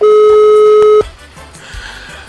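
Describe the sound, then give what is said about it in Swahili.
A steady electronic telephone tone sounds as a call is dialed to a caller on a live radio show, holding evenly for about a second before cutting off abruptly to a quiet, faintly noisy line. “wacha tupige Filipo simu tusikie anasema nini.”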